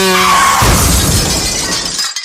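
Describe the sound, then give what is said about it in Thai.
Crash of a motorcycle, driven by a drunk rider, slamming into an electric pole: a loud impact with shattering glass that rings briefly, then breaking debris scatters and fades away into quiet. “ตายอยู่บนมอเตอร์ไซค์ที่พี่ออสดื่มแล้วขับไปชนกับเสาไฟฟ้า”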